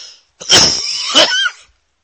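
A person choking in a coughing fit: two harsh, breathy coughs, each followed by a rasping trail.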